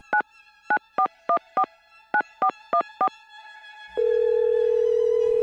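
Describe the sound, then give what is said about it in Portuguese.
Landline telephone dialing tones: nine short, evenly spaced keypad beeps in two quick groups, followed by a steady, unbroken line tone that continues to the end. “Deixa eu plugar a linha aqui. Discar.”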